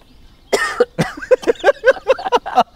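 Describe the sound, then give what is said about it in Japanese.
A person chokes and splutters through a fit of many rapid, harsh coughs in quick succession, loud and uneven. “むせてるじゃないですか”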